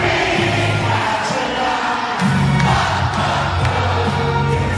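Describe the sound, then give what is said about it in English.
Football fans at a gathering in Croydon cheer England retaining the Women's European Championship title, a loud, continuous crowd roar with scattered shouts and whoops rising out of the din. “Reaction at a fans gathering in Croydon after England retained their Women's European Championship title.”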